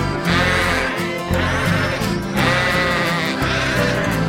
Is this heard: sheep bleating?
yes